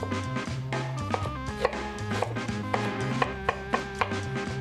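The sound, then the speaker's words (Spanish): Knife chopping onions, cucumbers, peppers, tomatoes and garlic into small pieces for gazpacho: many sharp taps on a board in a steady, brisk rhythm, with no talk. “Para prepararlo se necesitan verduras frescas, cebollas, pepinos, pimientos, tomates y ajos. Primero se cortan todos los ingredientes en trozos pequeños.”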